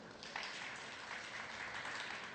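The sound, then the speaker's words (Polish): Applause from an audience at a Polish energy group's corporate event as its supervisory board is welcomed: a dense patter of many hands that starts after a brief quiet moment and carries on steadily. “Brawa, zawsze dodadzą otuchy.”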